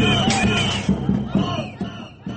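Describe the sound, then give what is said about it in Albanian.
A crowd of protesting students chants in Bulgaria, many voices joined in rhythmic shouted bursts that rise and fall in a repeating pulse. “Dorëheqje, brohoritë turma e studentëve.”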